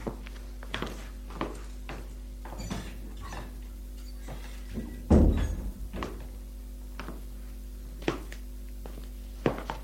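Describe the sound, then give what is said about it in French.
Footsteps of a girl going up to her bedroom, a steady run of many dull thuds at walking pace, with one heavier knock near the middle. “Et elle monte à sa chambre.”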